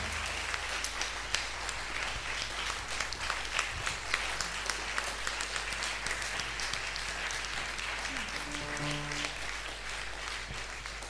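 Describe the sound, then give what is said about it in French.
Applause from an audience at a Catholic worship gathering acclaiming the Holy Spirit: many hands clapping in a steady, fairly faint wash that continues unbroken for about eleven seconds. “On va acclamer encore une fois le Saint-Esprit.”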